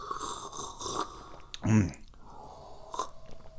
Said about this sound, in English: And there goes the teapot making wacky sounds.